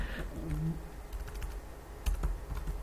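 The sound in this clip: Fingers type on a computer keyboard, many quick, irregular key clicks of varying loudness with a brief low murmur of a voice early on.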